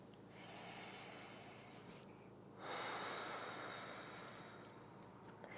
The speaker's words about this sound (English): Start to make deeper breaths. Inhaling really deeply, exhaling.